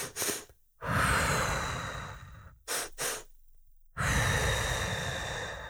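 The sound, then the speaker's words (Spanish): Calming breathing through the nose: two short, sharp inhales, then one long, smooth exhale, with the whole pattern repeated twice. The breaths are clear and close, with no talking. “La manera de respirar para calmarnos es dos veces cortamente por la nariz, una vez larga por la nariz o por la boca.”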